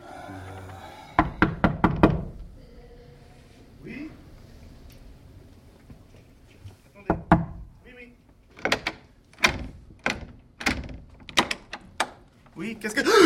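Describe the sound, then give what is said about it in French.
Knocking on an apartment door: a quick burst of sharp raps, a long pause, then more rounds of knocks, the later ones spaced in a loose rhythm. “Mais frappe à la porte.”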